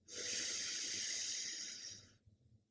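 A slow breath drawn in through the nose during a guided breathing exercise: a quiet, steady, airy hiss lasting about two seconds before cutting off.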